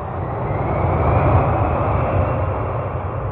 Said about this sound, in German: Von Bangkok fliegen wir mit Thai Airways ca. 4 Stunden und 30 Minuten nach Tokio.